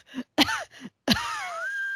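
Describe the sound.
A voice imitates Wheezy, the wheezing penguin from Toy Story: three short, strained gasping wheezes, then one long, drawn-out wheeze that trails off into a thin, high whistling tone.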